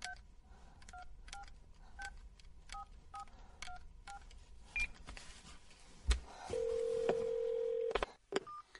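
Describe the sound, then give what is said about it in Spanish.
A mobile phone is switched on and a number dialled: a rapid series of many short keypad beeps at varied pitches, then a steady sustained tone lasting over a second, followed by a couple more brief beeps. “Enciende el teléfono y marca.”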